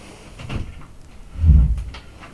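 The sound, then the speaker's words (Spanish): A door is shut quickly to keep mosquitoes out: a soft bump comes first, then a heavier, low-pitched thud near the middle, with a quiet background before and after. “Cierro rápido porque si no, madre, se mete en los zancú.”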